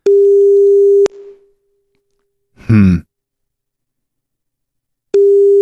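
Ringback tone of an unanswered phone call: a steady, low electronic tone lasts about a second, then silence and a brief breathy sigh. The same tone returns for a second burst.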